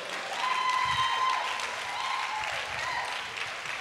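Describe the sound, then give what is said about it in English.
A church audience applauding to honour new university freshers, a steady dense clapping that continues throughout with a faint held tone beneath. “Can you stand on your feet anywhere you are, and as we clap for you, just stand on your feet anywhere you are.”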